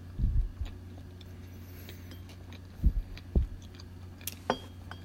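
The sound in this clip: Natto and whitebait being chewed, heard as soft, low, muffled chewing in a few irregular bursts with quiet pauses between them. No one speaks.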